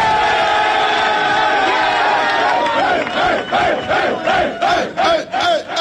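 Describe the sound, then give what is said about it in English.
A football team cheers in a locker room, loud overlapping shouts that turn into a fast, rhythmic group chant of repeated short syllables. “Does that sound like a locker room that doesn't love their head coach?”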